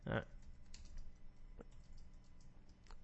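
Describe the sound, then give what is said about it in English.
Faint typing on a computer keyboard, scattered light key clicks under a quiet voice. “And I see these pauses are so I can type in these titles.”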